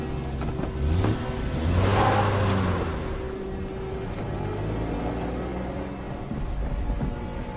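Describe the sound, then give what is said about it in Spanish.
A jeep pulling away, its mid-pitched engine revving up to a loud swell around two seconds, then easing into a steady, slightly softer drone that runs to the end, with no talk. “El capitán se aleja. Monta en el jeep junto a Nam y Monpo. El vehículo se marcha.”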